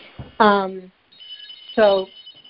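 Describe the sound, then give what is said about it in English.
A telephone rings in two bright, harmonic electronic bursts, the first about half a second long and the second shorter, with a thin steady high tone running between and after them. “The phone is ringing. I will ignore it.”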